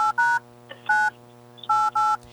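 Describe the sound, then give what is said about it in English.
Telephone keypad dialing tones sound as a call is placed: a few short, clean dual-pitch beeps in an uneven rhythm, steady and fairly loud over a low constant hum. “Well, let's give her a phone call.”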